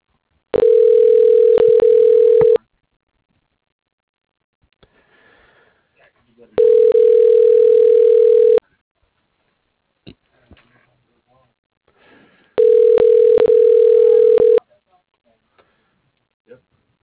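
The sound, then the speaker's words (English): A telephone line tone plays while a call is dialed: three identical steady beeps, each about two seconds long, separated by roughly four-second gaps. Faint small sounds come between the beeps. “Okay, dialing.”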